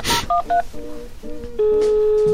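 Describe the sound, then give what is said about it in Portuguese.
Telephone keypad dialing while placing a call: a sharp click, then a quick series of short dual-tone beeps, followed by a long, steady tone that holds to the end. “a gente vai fazer algumas ligações aqui aleatoriamente.”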